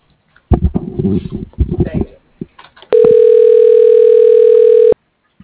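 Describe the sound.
A single steady telephone tone sounds for about two seconds while an extension is dialed on an automated company phone line, following a stretch of indistinct voice-like sound.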